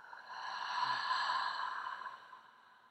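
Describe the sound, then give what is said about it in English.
One slow, deep breath during a guided breathing exercise: a soft, airy whoosh that swells, then fades over a few seconds, heard alone. “Again, inhale and exhale.”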